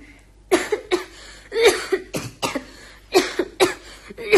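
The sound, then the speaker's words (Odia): A person coughs repeatedly, a series of short, harsh coughs in uneven clusters, loud and heard alone without any talk. “କଣ ପୁଣି କାଶ? ହଁ ପରା, ମୋର କାହିଁକି ଆଜି ମଝିରେ ମଝିରେ କାଶ ହଉଛି”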